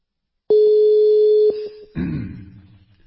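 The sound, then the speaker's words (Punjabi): A steady single-pitch telephone tone as a call is placed to a doctor, loud for about a second, then softer for a moment before a broad rushing burst that fades out. “ਲਓ doctor ਸਾਹਿਬ ਨੂੰ ਕਾਲ ਕਰ ਦਿੱਤੀ।”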